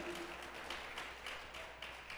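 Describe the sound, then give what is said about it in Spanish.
Church audience applauding for Christ with faint clapping that falls into a loose regular beat of many hands striking together at a steady pace. “Gloria a Dios, démosle gloria a Cristo, aplausos a Él.”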